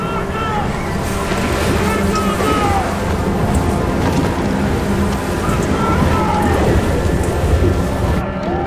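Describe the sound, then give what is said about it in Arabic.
Storm at sea as a big wave strikes a ship: a loud, continuous roar of crashing water and rain-like wash with deep rumbling underneath, sustained throughout. “ضرب الموج الكبير السفينة واختفى سراب المدينة”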